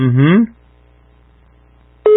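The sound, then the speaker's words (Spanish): Telephone ringing tone on an outgoing call: a short pitched sound, near silence with a low hum, then a loud, steady electronic ring tone. “Tercera timbrada y nada.”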